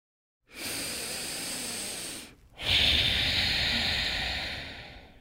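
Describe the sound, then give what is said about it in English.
A deep breath taken slowly: a long, hissing inhale is followed by a short pause and then a fuller, longer exhale. The breathing is fairly loud and heard alone. “Let's take a deep breath,”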